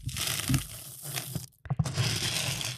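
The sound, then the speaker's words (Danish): Hands rake through a tub of uncooked rice, making a dense, grainy crunching and rustling that runs steadily, pauses briefly midway, then resumes at the same level. “eller en balje med ris, ukogte ris, som jo har en fantastisk struktur. Og hvis du lige prøver at høre her,”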